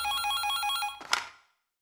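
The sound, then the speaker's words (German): Electronic telephone ringing for a late-night call: a rapid warbling trill repeats steadily for about a second, then cuts off into a short clattering burst as the ringing stops. “Endlich läutete das Telefon.”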